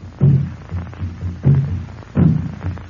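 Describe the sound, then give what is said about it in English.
Deep African drums beat a rhythmic pattern. Three loud, low, booming strokes stand out, with softer thuds falling between them in a steady, throbbing groove. No one speaks. “African drums are talking.”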